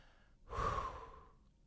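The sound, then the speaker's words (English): A single deep breath, as a person demonstrates the calming breath a baseball batter takes before stepping back in: a soft intake, then a loud breathy exhale that slowly fades. “Samad after seeing strike one, timeout, takes two big deep breaths before digging back in and walking it off”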